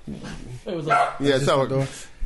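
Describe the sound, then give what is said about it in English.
A dog barking excitedly as someone comes in through a door with an alarm, a few loud yelping barks in quick succession that rise and dip in pitch. “That's our door alarm. That's our door alarm. Whenever someone else comes in, the dog goes crazy.”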